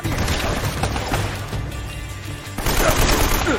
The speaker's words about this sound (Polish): O nie, to musi być granat.